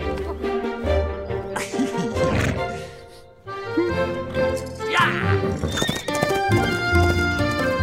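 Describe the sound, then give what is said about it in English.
A horse neighs and its hooves clip-clop steadily as a rider sets off along a highway in a children's story, loud over a continuous music backing. “And the Highway Rat went riding along the highway and stealing the traveler's food.”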